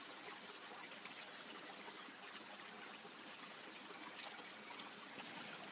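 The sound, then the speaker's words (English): A stream trickling into a pond makes a faint, steady wash of running water that stays even throughout, with no other sounds. “There is a trickle from a stream leading into the pond.”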